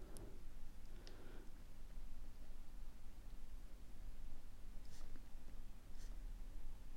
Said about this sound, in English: Right, I better just write this down as well.